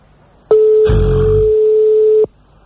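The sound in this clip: A telephone line tone sounds while a radio host places a call: one loud, steady, pure pitch lasting under two seconds, with a short low rumble beneath its first half.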